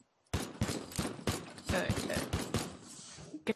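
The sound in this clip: Gunfire from a shotgun in a video game: many sharp, loud blasts in rapid succession, followed by a single final shot after a short pause.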